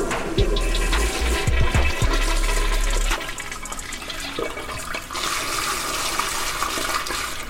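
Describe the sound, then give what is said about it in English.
A toilet flushes with a continuous rush of water that is loudest over the first few seconds, then drops to a lower, steady gurgling wash as it drains and refills. “That was the sound of the Mavericks flushing day season right on down the drain.”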